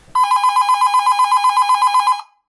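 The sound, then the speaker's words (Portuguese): A telephone bell rings for one loud, steady burst of about two seconds, a rapid metallic trill of pulsing strikes that stops abruptly. “Opa, temos já a nossa primeira ligação.”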